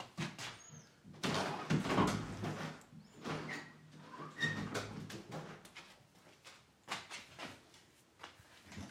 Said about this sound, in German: Schlafzimmer aufmachen.